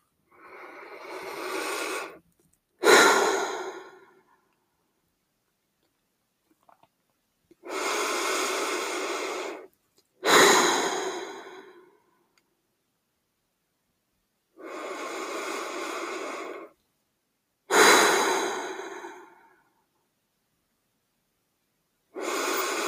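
Deep, slow breathing during a guided relaxation exercise, in three full cycles. Each long, steady breath is followed by a sharper, quicker one, with silent pauses between them.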